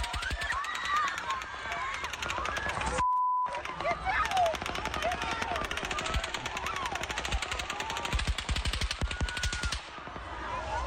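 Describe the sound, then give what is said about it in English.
Machine-gun fire recorded from the ground: rapid, sustained bursts of many sharp shots hammer on almost without pause, broken once by a brief gap near the start. “It's, I think in the instances where we've seen or heard shooting, it's bam, bam, bam, even if it's fast. That's a machine gun. We're just not used to that kind of firepower.”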